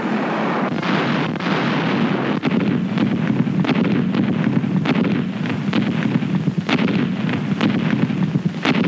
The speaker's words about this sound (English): United States officers now observe the effect of rapid artillery fire, the kind of mass barrage that bewilders the enemy.